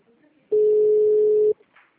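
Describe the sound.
A single telephone ring tone from a call about to be forwarded to voicemail: one steady, clear mid-pitched beep lasting about one second, with near silence before and after.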